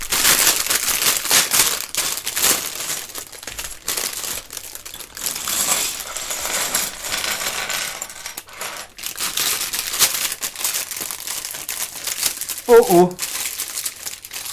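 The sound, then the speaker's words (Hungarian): A plastic parts bag, number 17 of a Batmobile building set, is opened with loud, continuous crinkling and crushing of the bag, while a person talks over it. “most kibontom azt a zacskót, amit rá is tudok építeni a Batmobilunkra, úgyhogy akkor jöjjön. Jöjjön a 17-es zacskó.”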